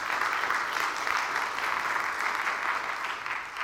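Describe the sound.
Audience applause welcoming a guest speaker to the front at a church ministry gathering: a steady, dense wash of clapping from many hands that holds evenly throughout without voices.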